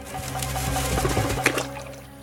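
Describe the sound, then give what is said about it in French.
Water splashes as a badger plunges into it: a churning, sustained wash of sloshing water that swells to a sharp splash near the end, then quickly fades. “Ce plongeon accidentel est providentiel. Le blaireau déteste l'eau.”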